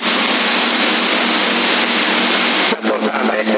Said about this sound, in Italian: La portante si è svegliata.